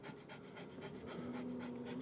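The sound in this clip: Dogs pant in quick, regular breaths, many short rhythmic puffs that keep a steady pace throughout, soft and unaccompanied by talk.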